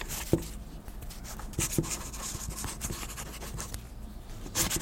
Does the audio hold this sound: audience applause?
no